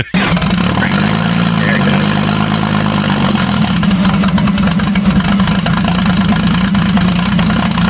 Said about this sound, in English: if your car doesn't start, don't keep doing this. I think it's cool. Right before it finally kicks over.